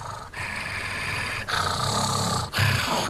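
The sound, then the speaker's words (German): A creepy creature voice growls and gurgles in a raspy, continuous snarl, broken by brief pauses into about three long stretches, with no other sounds around it. “Ich glaube, man erkennt's, oder? Die meisten sollten es erkennen. Gollum aus Herr der Ringe.”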